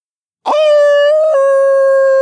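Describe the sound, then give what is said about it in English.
In the dark, a single loud animalistic howl breaks from silence as a long sustained cry. It holds an almost steady pitch, with a slight shift partway through. “An animalistic howl rent the dark around us, and all the lobster mites froze in place.”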